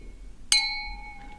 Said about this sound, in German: Jetzt aber mal ein Schlückchen. Vorher müssen wir natürlich jetzt mal anstoßen.